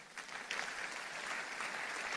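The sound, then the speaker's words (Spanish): Faint applause from a church audience clapping for the Lord during a sermon. A soft, even patter of many hands continues steadily throughout. “Si lo crees, dale un aplauso al Señor.”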